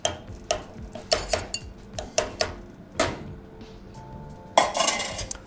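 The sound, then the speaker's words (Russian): A muddler knocks and clinks as it crushes three fresh raspberries for a cognac variation of a Clover Club cocktail. There are many sharp, irregular taps, then a longer rattling clatter near the end. “Итак, нам понадобится свежая малина, можно добавить 3 ягоды. Обязательно малину нужно растолочь.”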